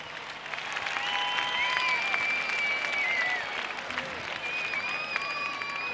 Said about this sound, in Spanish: Un aplauso para esta tremenda banda.